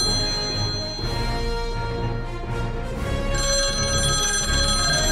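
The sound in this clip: Ringing tone of an outgoing telephone call, a steady electronic tone sustained throughout with a shift in its tone partway through, no voices heard.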